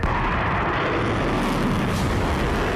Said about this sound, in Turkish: Böylece Türk Silahlı Kuvvetleri, yerli olarak üretilen en uzun menzilli balistik füzeyi envanterine katarak ateş gücündeki menzilini 600 kilometrenin üzerine çıkardı. Ateş.